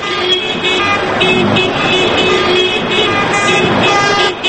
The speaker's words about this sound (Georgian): აქტივისტებისგან შემდგარმა საავტომობილო კოლონამ თბილისის ცენტრალური ქუჩები ხმოვანი სიგნალების თანხლებით შემოიარა